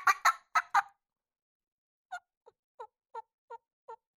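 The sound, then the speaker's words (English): Turkey hens call while squabbling and pecking at each other. Four loud, raspy calls come in a quick burst, then after a pause six softer, evenly spaced clucks. “that little fast deal is two hens that are kind of pecking at each other, running around, and that shot just one hen”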